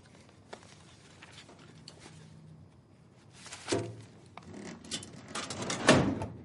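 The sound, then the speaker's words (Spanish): A filing cabinet drawer is opened and a letter is slipped in among a pile of envelopes. Faint clicks come first, then a louder sliding rustle and a few clattering knocks of paper and metal. “Abre un cajón de un archivador. Mete la carta entre un montón de sobres.”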